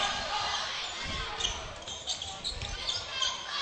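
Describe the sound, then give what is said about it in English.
A basketball dribbled during a basketball game late in the contest, with the Bears holding the lead. A few dull, low bounces thud under a steady wash of crowd noise. “Hammerling on the dribble.”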